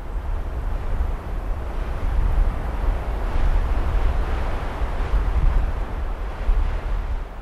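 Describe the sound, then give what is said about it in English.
Wind rushes through a hemlock forest at the tree line in the Chugach Mountains outside Anchorage, a continuous, broad, low roar that swells and eases in gentle gusts without pause. “This particular recording was made in a hemlock forest, right at the tree line in the Chugach Mountains, outside of Anchorage, and you can hear the wind moving through these trees.”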